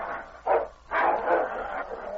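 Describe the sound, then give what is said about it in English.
Dogs snarling and fighting as a bigger, stronger dog overpowers a wolf dog: rough, growling bursts, one short and then a longer, sustained stretch of snarls. “The dogs rolled in the snarling heat.”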